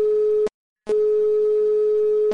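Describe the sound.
Telephone ringing tone heard while placing a call: a steady mid-pitched tone cut off after half a second, then a short pause and a longer tone of about one and a half seconds.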